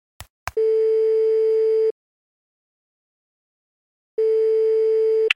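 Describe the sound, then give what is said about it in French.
Telephone line tone heard while placing a call: a couple of sharp clicks, then two long, steady, mid-pitched tones of equal loudness separated by a few seconds of silence. “Bon, attends. J'appelle Bertrand, le rédacteur en chef d'Image Doc.”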